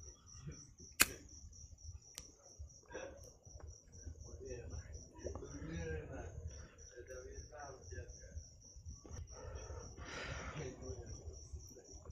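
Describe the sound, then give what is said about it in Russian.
Cicadas chirping in a steady, high, continuous buzzing trill that runs through the whole clip over low, rumbling background noise. “А что там, цикады трещат?”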